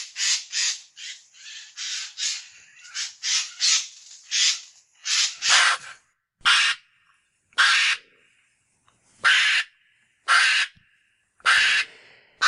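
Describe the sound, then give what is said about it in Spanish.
Harsh, raspy screeches of a Eurasian jay in dense forest, a quick irregular run of grating calls in the first half, then slower, separate loud screeches about a second apart, with no other sounds. “Pero no os penséis o no os quedéis mejor con que el arrendajo os asusta en medio del bosque, que os va a dar esas voces y tal.”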